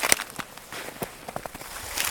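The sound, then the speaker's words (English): Footsteps of people hiking up forested Mount Watatic in north central Massachusetts on a cold, crisp day: an uneven series of soft, faint crunches and scuffs over quiet ground noise. “hikes up Mount Watatic in north central Massachusetts.”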